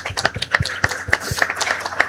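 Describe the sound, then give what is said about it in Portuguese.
Rhythmic clapping in honour of parents at a gathering: sharp, evenly spaced claps land about three times a second at a moderate level, with a faint patter of other hands between the beats. “Uma salva de paz aos, de palmas aos nossos pais.”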